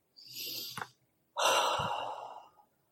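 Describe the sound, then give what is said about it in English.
Two slow, deep breaths taken during a guided relaxation exercise: soft airy breathing sounds with a brief pause between them, the second breath longer and louder than the first. “So close your eyes and take a few deep breaths with me.”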